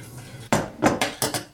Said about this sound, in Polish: Teraz będę delikatnie jogurt mieszać.